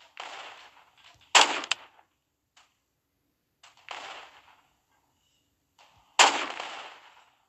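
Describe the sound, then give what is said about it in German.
Sniper rifle gunfire in a video game: two loud, sharp shots ring out, separated by a couple of softer, shorter bursts, with silence in between. “Und ich hocke gerade als Sniper ein bisschen hier rum und shoote auf alle. Volltreffer!”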